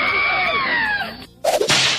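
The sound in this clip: A whip crack sound effect: a whistling swish that drops in pitch, a short near-silent gap, then sharp, noisy cracking bursts.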